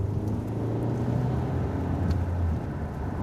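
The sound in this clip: A car drives through a city carrying a police investigation team, with a steady low engine and road rumble throughout and no voices.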